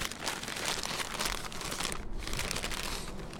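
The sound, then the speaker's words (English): Crinkling and tearing of gift wrap as a Christmas present holding a large block of noodles is ripped open, a steady, dense rustle of paper that runs without pause. “He's tearing into the present.”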